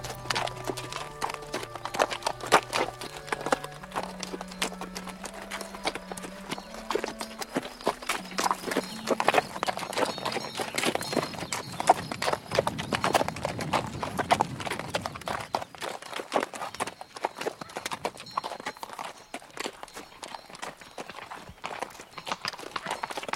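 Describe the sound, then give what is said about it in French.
A dragoon's horse clip-clops along a road sloping gently down through juniper heathland, making many brisk, hard hoofbeats in an uneven rhythm throughout. A soft tonal melody sounds under the first half. “Le cheval de ce dragon qui nous a dépassé tout à l'heure.”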